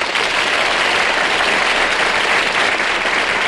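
Steady studio audience applause welcoming a guest: a dense, even wash of clapping that holds at one level from start to finish, with no voices.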